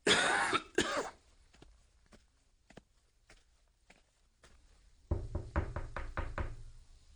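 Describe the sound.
Knocking on a door: a cough-like burst, then many soft, widely spaced taps, then a louder, rapid run of several hard knocks at the end. No voices.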